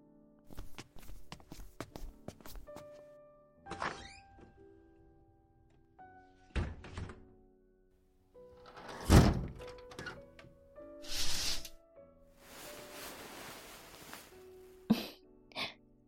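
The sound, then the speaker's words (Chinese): Doors and windows are shut in a series of dull thunks and knocks, some with short rattles and scrapes, spread unevenly over time, with faint sustained tones lingering underneath. “你去把门窗关上。”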